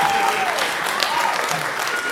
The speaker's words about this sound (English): I don't know why you're clapping.